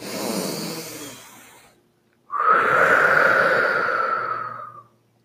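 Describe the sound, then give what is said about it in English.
A deep human breath in two long phases: a softer, airy breath first, then after a short pause a louder, sighing exhale with a slight voiced tone, both alone without speech. “Okay, take a deep breath with me.”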